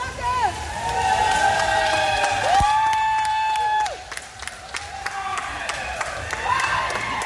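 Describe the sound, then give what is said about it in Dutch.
Applause and cheering for pupils who have just earned their swimming diplomas, with loud crowd noise, clapping and gliding whoops, and voices talking over the celebration. “Ja, verdiend applaus voor deze leerlingen. Ze hebben hun zwemdiploma binnen.”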